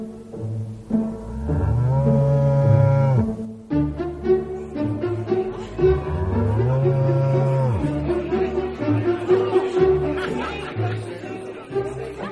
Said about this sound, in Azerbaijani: Langamut inəyi qabağına qatıb şəhərə yollandı